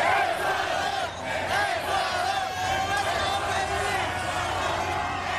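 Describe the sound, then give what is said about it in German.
Ecuador football fans celebrate their team's 2–1 victory over Germany at night in East Rutherford near New York, a dense, sustained crowd roar of shouting and chanting voices that stays loud and steady throughout. “So klang das in der Nacht in East Rutherford bei New York. Die Fans aus Ecuador haben dort den 2:1-Sieg ihrer Mannschaft gegen Deutschland ausgiebig gefeiert.”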